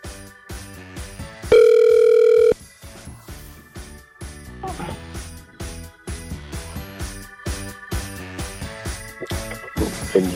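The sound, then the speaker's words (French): Ringback tone of an outgoing phone call to a listener in the Savoie region during a radio phone-in game: one steady, loud electronic tone lasting about a second over background music. “On va tenter d'appeler encore une fois. On a eu deux personnes qui ne nous ont pas répondu juste avant. Du coup, ben, on essaye tout simplement dans les deux Savoies. Alors, déjà ça sonne.”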